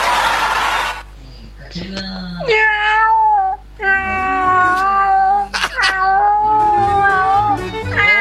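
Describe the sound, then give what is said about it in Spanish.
A scrawny, mangy cat caterwauls in loud, drawn-out, wavering yowls, several sustained wails in a row, preceded by a short burst of noise. “¡Ay, el gato flacuchento y pelado!”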